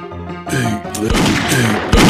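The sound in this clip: Gunshots in the video game Grizzly Gulch: a couple of sharp, booming bangs go off amid game sounds, with a voice heard alongside.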